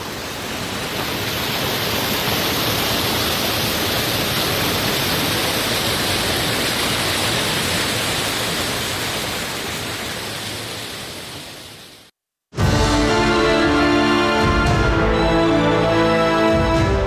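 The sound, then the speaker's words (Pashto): Cold spring water at Mazar Baba in Uruzgan rushes in a loud, steady, hissing roar for about twelve seconds, then cuts out briefly before music starts. “د اروزګان د مزار بابا په نوم دا چینه د دې ولایت یوه له مشهوره تفریحي او تاریخي سیمو څخه ده چې د ښکلي طبیعت او یخو اوبو په لرلو سره د خلکو لپاره د آرامۍ او ساتیري یو غوره ځای دی.”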